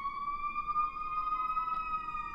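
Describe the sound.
An emergency vehicle siren passing outside: a steady, high, harmonic tone with a slight waver that holds at low level for the whole clip.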